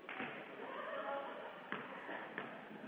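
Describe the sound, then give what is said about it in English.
A basketball is dribbled on a court during a game, producing a few sharp thuds against a continuous backdrop of arena noise. “Dribbles the ball. Sights the basket. Puts it up short.”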